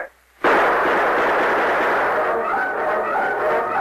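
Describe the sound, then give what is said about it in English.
Gunfire from outlaws in a radio drama erupts after a brief silence into a dense, loud, sustained roar of shots that barely lets up. “As the torch flared through the darkness, the outlaws opened fire.”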